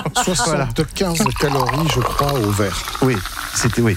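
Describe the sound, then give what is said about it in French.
A champagne cork pops and the champagne is poured with a liquid fizz, both partly masked by people talking in French. “le bruit que vous entendez là du bouchon qui saute, pour beaucoup, c'est bon. Donc le bruit de la victoire, d'un mariage, voire d'un nouvel an.”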